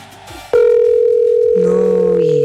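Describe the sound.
A telephone ringback tone from an unanswered call sounds as a steady, loud electronic tone after a brief voice, holding at an even level to the end. A lower tone joins partway through.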